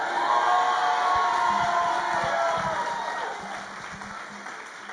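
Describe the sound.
A church audience shouting and cheering together in a loud, sustained roar of many voices that slowly fades over the last seconds.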